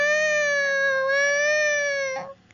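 A newborn baby cries at the birth of Jesus in a manger. It is a single loud, high, steady wail that lasts about two seconds and then breaks off.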